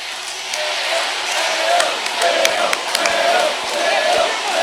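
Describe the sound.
A crowd cheers and roars to celebrate the 2026 All-Ireland Senior football champions. Massed voices swell and surge in waves, with a few sharp shouts standing out from the din.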